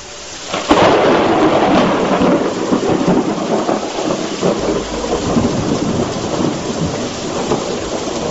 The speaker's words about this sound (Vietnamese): Gió mây lập tức đảo chiều, tiếng sấm rền rã cũng bắt đầu vang lên.